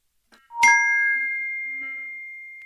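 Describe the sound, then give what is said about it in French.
A watch notification chime sounds at night: a single bright ding that rings on in a long, slowly fading tone, heard alone against silence. “Même la nuit elle sonne ta montre?”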